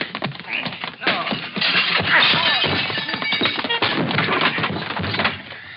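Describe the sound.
Blows land on a man in a staged fistfight in a crime drama: many dense, overlapping thuds, whacks and cracking knocks clatter together for about six seconds, loud and chaotic throughout.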